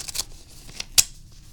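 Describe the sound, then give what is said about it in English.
Crisp paper sounds come from opening a thick paper envelope: a few sharp rustles and tearing snaps, with the loudest snap near the end and quiet handling between them. No one speaks. “We need to open this envelope. I received some mail.”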